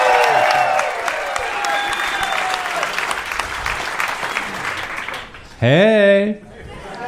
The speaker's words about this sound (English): make some noise for my friend, Brian Swinehart.